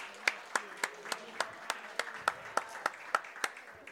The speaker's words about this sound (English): Everybody, let's hear it for girls soccer.